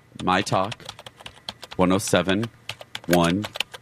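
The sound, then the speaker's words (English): Someone types on a computer keyboard with many rapid, crisp key clicks in an irregular rhythm, heard under people talking. “This is how you do that. You go to your computer and type”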